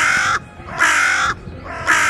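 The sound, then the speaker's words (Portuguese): Three loud, harsh caws from a bird screeching as it flies back to a roof. The bursts are evenly spaced with short silent gaps between them. “O pistoleiro se levantou e o pássaro voou de volta para o telhado, gritando.”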